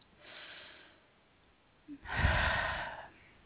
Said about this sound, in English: So take that deep breath.